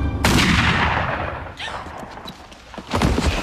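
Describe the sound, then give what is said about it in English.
A sniper rifle gunshot cracks out loud and sudden, then trails into a long, rumbling roll of noise that slowly fades, with further low thumping noise near the end. “Sniper just took out a new kid.”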